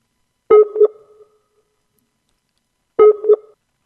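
Skype call ringing tone, a sonar-like electronic blip: two identical short tonal chirps, each a quick double pulse, separated by a long silence.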